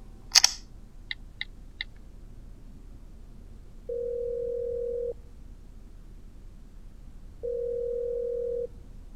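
A telephone call being dialed and left unanswered: a sharp click, three quick dialing beeps, then two long, steady ring tones separated by a pause, all clear against quiet background hiss.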